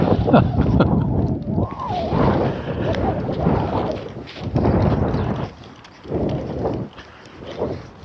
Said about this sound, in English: Oh yeah, there's the wind.